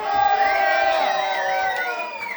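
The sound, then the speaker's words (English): Crowd at a live show in a tavern cheering and whooping: a dense, sustained wash of shouts and rising and falling yells that stays loud throughout, without clear clapping. “How about a round of applause to the Long Trail Tavern?”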